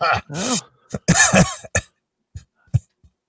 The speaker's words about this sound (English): That I was coughing on air? Yeah. Get away. He was coughing.